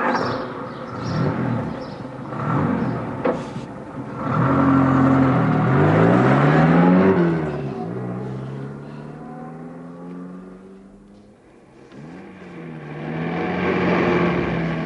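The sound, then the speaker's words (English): A van's engine revs and pulls away with a loud, steady motor drone. The drone climbs in pitch, drops back, then climbs again as the van drives off. “get Jones into the back of the van. And hurry up. We've lost enough time as it is. I'll take the wheel.”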